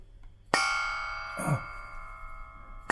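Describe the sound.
A small bronze baobab tree sculpture from Burkina Faso is struck like a bell: two bright metallic strikes, one early and one at the end, each ringing on with a long, slowly fading tone, with a softer knock between them.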